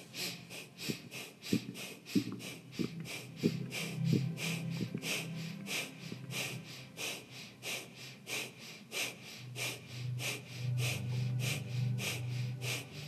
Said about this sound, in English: Keep the breath, stay here, and now do like a breath of fire. Your navel's gonna come in and out.